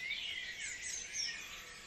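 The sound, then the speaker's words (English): Dawn chorus of many birds singing at once, a dense, high-pitched tangle of chirps and warbles that runs continuously and fairly quietly throughout. “And this is the Dawn Chorus as recorded by Derek Mooney. It's glorious, isn't it? They're very active at the moment.”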